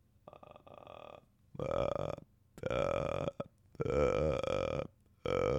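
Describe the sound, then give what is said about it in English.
A person's voice imitates the pig-like croak of a hunted game animal with several guttural, burp-like croaks separated by short pauses. The first croak is quieter and the later ones are loud and rough. “I'd hear these guys make a noise. They make like a pig noise. Let me see if I can do something that even it comes close to it.”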